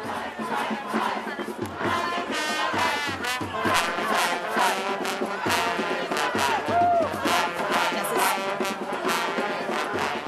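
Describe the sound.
Activists at a house occupation in East New York, the first action of Occupy Our Homes, shout together as a crowd. Many voices form a continuous, loud wall of sound throughout.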